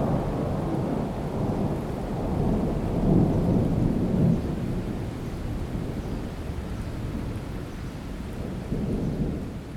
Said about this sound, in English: So if you hear rumbles in the background of the recording, that'll be the thunder, or possibly my children running up and down in the hallway.